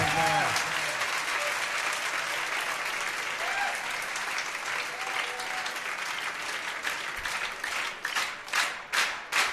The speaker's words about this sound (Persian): حالا یک کف خوشگلم بزنید